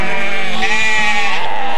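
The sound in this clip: Sheep bleat as a herd, a loud, wavering, nasal cry that fills the whole short clip without pause.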